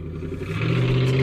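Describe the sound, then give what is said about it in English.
Car engine revving as the car does donuts, a steady mid-pitched droning hum that grows gradually louder over the short stretch, with no voices. “Oh, they're doing donuts.”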